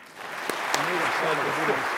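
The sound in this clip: Audience applause at the Westminster Town Hall Forum as a journalist is welcomed on stage. A steady wash of clapping runs throughout, with a voice speaking over it.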